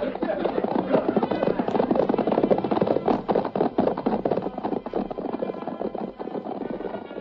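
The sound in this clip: Galloping horses with riders moving off, a dense, rapid clatter of hoofbeats that stays loud and steady throughout and thins slightly toward the end.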